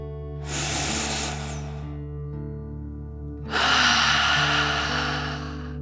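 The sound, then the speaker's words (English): Deep breathing, in through the nose and out through the mouth: a long breathy inhale, a pause, then a fuller, louder exhale, over a soft steady musical drone. “Let's take one more deep dragon breath. Remember to breathe in through your nose and out through your mouth, like a dragon. Here we go. Deep breath. In and out.”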